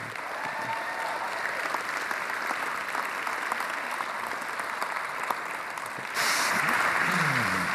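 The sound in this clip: An audience applauds to welcome guests at a morning gathering: steady, dense clapping throughout that swells noticeably louder toward the end.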